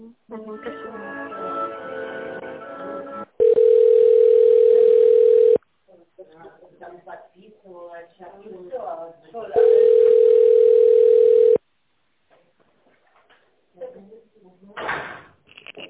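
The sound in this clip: A telephone line tone plays while a call is transferred to an accounting department: two loud, steady, single-pitch tone bursts, each about two seconds long, separated by a stretch of other muffled sounds and a short silence.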